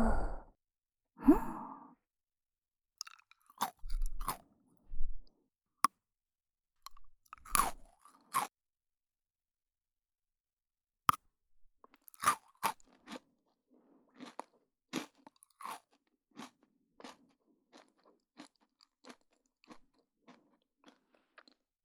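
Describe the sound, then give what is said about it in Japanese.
Pocky biscuit sticks are bitten and chewed up close for ASMR, giving many crisp, quiet crunches that start sparse and grow quicker. A soft sigh or breath comes near the start. “美味しいだけがポッキーじゃない、レッツポッキー ASMR。”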